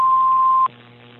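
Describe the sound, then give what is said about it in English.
A single steady, mid-pitched answering machine beep follows a voicemail greeting and holds for about two-thirds of a second. It cuts off abruptly into a faint low line hum. “Hello. Please leave a message after the tone.”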